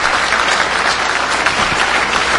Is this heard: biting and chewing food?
no